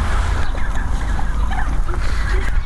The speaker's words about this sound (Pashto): فیلمرغانو هم د خوړو په لیدو سره شور جوړ کړی.